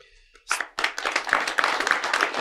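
Audience clapping breaks out after a brief, quiet stretch, rising into many sharp, overlapping claps that hold at a steady, lively level to the end.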